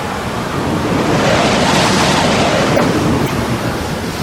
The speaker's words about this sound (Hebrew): הנה, משה רבינו מטה את ידו על הים. מה הולך לקרות? רוח אדירה החלה לנשוב.